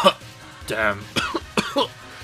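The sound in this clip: A man coughs after a heavy hammer collapses onto his chest and he falls through the floor: a few harsh coughing bursts mixed with a strained, voiced groan.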